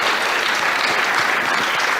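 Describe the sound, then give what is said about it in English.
An audience applauds two young microphone helpers at a company event, a dense, even wash of clapping that holds at a steady, loud level for the whole moment, without talk. “Maybe a quick round of applause for them.”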